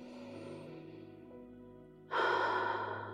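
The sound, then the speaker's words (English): A deep breath, one slow, loud, airy inhale that swells in suddenly and holds, over a soft steady background tone. “let's take 3 deep breaths.”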